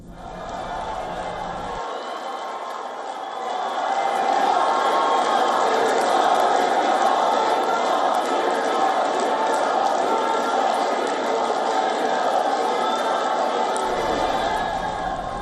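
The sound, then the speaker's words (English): Loud cheering from a very large gathering of the Indian diaspora welcoming the Indian Prime Minister at The Hague; a dense, sustained roar of many voices that swells after a few seconds and holds steady to the end. “But the Indian Prime Minister also addressed a very large gathering of the Indian diaspora at The Hague, where he was welcomed with some loud, rapturous cheering.”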